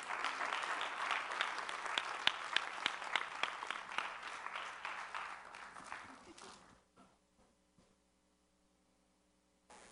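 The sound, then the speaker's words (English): Audience applause for two children after a closing prayer. The clapping is dense and steady at first, then thins and fades away into near silence. “Let's give them a hand.”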